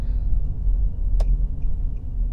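A car engine runs rough while driving, giving a low, uneven rumble with one sharp tick partway through.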